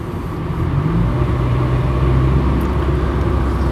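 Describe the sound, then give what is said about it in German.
Deep, rumbling engine noise of an Audi car driving by, loud and steady throughout without a clear swell or fade. “Boah, geht der mir auf den Sack mit seinem Audi?”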